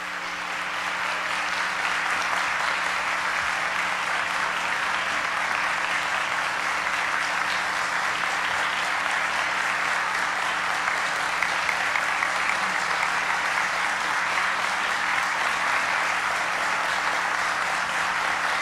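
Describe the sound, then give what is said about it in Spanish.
A large crowd gives sustained applause in support of Peru's armed forces during an official address. The clapping is dense and even, holding at a steady level for the full length with no clear talk over it. “aplauso entonces de apoyo a las Fuerzas Armadas de Perú que han respaldado el”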